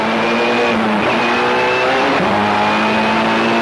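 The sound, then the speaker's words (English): Race car engine roaring loudly at the start of a race as the driver warms the tyres on a Del Mar street circuit lined with concrete barriers and tight turns, a steady droning roar whose pitch briefly dips and recovers. “Oh, that's the beginning of the race. It's not racing. He's just getting those wheels sticky.”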